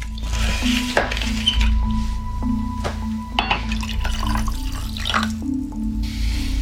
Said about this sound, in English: David drains a glass of wine, then unscrews a bottle cap and pours himself a refill